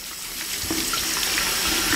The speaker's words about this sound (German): Der Puppenkopf liegt jetzt im Waschbecken, wurde jetzt kurz eingenässt.